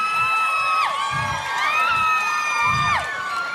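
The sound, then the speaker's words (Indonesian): A concert audience screams loudly without a break. Shrill, high-pitched shrieks overlap, some sliding sharply down in pitch, over a constant crowd roar. “Kok itu yang kumisan juga teriak sih?”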